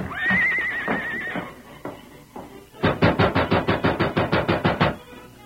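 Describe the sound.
Silver, the Lone Ranger's horse, lets out a loud whinny that wavers and trails off, followed after a pause by a steady run of many rhythmic hoofbeats at an even trot.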